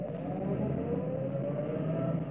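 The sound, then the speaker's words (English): A car drives up and turns into a driveway, heard as a steady, fairly quiet engine drone with a faint tonal whine held throughout, with no voices. “There's a car. As I see it. It's going to turn up our drive.”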